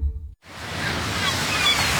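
Sea waves wash in a steady, full rush of surf, starting after a short clipped sound and a brief silence and holding at an even level throughout.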